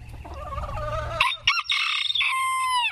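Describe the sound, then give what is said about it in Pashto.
Chickens in Massachusetts, kept by retirees who make jackets to protect them from the cold, cluck and call loudly, with a drawn-out crow-like cry followed by sharp clucks and high squawks, and no talking. “د امریکا د ماساچوسټ په خار کې د متقاعدینو یو ډله د جمع په هوا کې چرګانو ته ګرم جګټونه جوړوي چې د یخنۍ نه خوندي وساتي”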